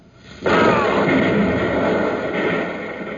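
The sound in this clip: Explosion of anti-tank atomic weapons destroying tanks: a sudden loud blast that at once becomes a dense, sustained roar and rumble, slowly easing off over the following seconds.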